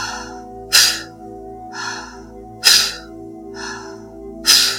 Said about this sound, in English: taking this next inhale in through your nose, snapping the belly on the exhale, passive inhale.